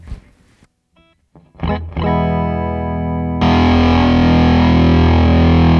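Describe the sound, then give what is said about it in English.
Electric guitar through a fuzz pedal: a few sparse picked notes, then a thick, distorted sustained chord rings out from about two seconds and grows louder and brighter partway through, fuzzy and buzzing to the end. “Let's try the fuzz and see if that's on the dry signal or not.”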